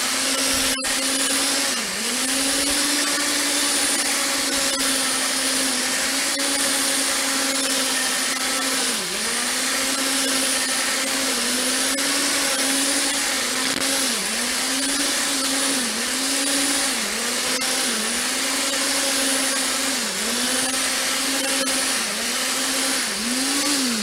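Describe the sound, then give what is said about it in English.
Steady motor whirring from a whisk beating a cream cheese and condensed milk mixture, holding one pitch with small regular dips throughout and no talk. “But the first thing I'm going to do is hit this again with the whisk and just make sure I do a little bit more work.”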